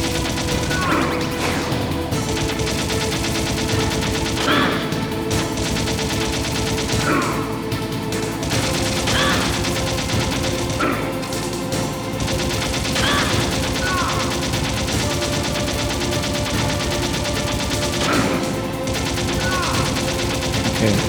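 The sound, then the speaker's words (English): Gunfire in a video game, shot by a player aiming from a swerving vehicle that keeps getting bumped, with sharp shots scattered through a dense, loud, continuous wash of game noise. “Just so hard to aim this damn gun.”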